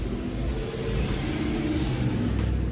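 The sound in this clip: A car driving past, heard as a steady, low engine rumble with a continuous droning hum and no clear change in pitch or loudness.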